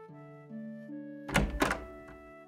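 A door being opened at night, with two heavy thunks in quick succession over a soft, steady musical tone.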